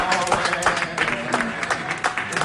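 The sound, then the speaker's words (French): Newsroom staff at Catalan public media clap to celebrate Girona's football win over Real Madrid. The applause is loud and uneven, with sharp individual claps standing out and voices mixing in. “La rédaction applaudit la victoire de Gérone face au Real Madrid.”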